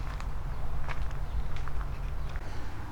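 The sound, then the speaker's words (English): Footsteps walking along a trail past a pond, many soft steady steps barely standing out over a constant low rumbling hum, with no voices. “But I do not let this hinder me. I just keep on walking.”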